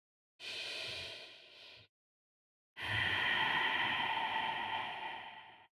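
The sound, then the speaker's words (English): One deep, mindful breath: a soft breathy rush of air for over a second, a pause, then a longer, steady, airy exhale lasting about three seconds, with no talking. “Let's do one mindful breath together.”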